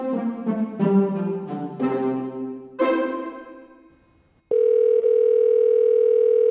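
A telephone call to a store's customer service line: a few bright chiming notes ring and fade, then a loud, steady continuous tone holds without a break to the end.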